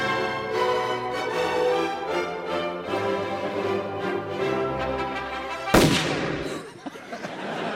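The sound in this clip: A single loud shotgun blast cuts sharply through sustained, steady music with stacked tones. It is followed by a quick decay and the music continuing more faintly.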